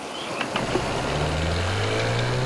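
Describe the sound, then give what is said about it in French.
An outboard motorboat engine drones as it approaches, with a continuous low rumble and buzzing, mechanical hum. It stays fairly even in loudness throughout. “Soudain, un bruit de moteur leur fait tourner la tête. C'est un hors-bord venu à leur secours, qui approche.”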